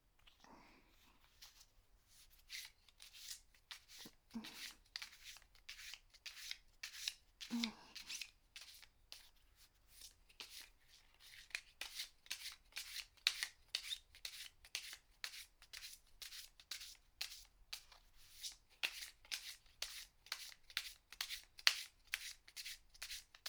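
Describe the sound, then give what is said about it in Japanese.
Playing cards are shuffled gently close to the ear, producing many rapid, soft flicking riffles that stay quiet and run in a steady, even rhythm. “あまりカードに負担がかかるようなシャッフルは避けておきたいので、ほら、耳元でも聞かせてあげます。”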